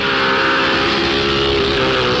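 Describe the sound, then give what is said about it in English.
The engine of a Formula One Lotus racing car roars in a loud, continuous high-revving drone whose pitch holds steady throughout. “Driving a Formula One Lotus needs special training”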